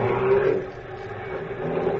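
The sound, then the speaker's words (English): A Cairo taxi's engine pulling away at speed, a steady broad rumbling roar with a low hum that dips slightly midway and then holds level. “Oh, I have the very fine taxi. At times it can go very fast.”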